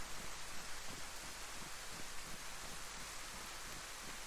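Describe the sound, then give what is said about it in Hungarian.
Steady rain makes a dense, even hiss of falling drops that continues unbroken and stays soft throughout. “Nem úgy néz ki ez az eső, mint ami el akarna állni az elkövetkezendő percekben egyébként.”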